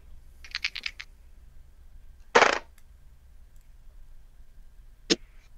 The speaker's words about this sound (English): So now you need to roll 2d6 on your strength.